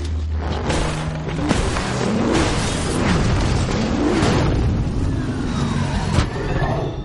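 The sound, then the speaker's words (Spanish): An armored vehicle in an animated film stops and shoves parked cars off the street, producing a dense, continuous roar of heavy engine noise mixed with booming impacts, scraping, and crunching metal that stays loud throughout. “El blindado de Gru se detiene y aparca empujando a los coches de delante y detrás hasta echarlos de la calle”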